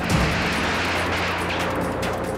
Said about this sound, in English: State police helicopter drops it. There is the explosion.